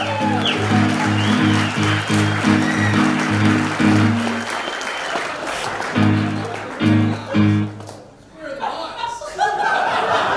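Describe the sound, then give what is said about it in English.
Audience applause at a live show, mixed with chuckles and laughter, runs as steady clapping over a rhythmic music bed. It dips briefly near the end, then picks up again. “Make sure to clap, even if you're watching at home.”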